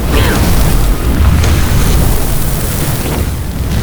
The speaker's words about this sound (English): Whoa! I've never seen Leo shoot so much fire.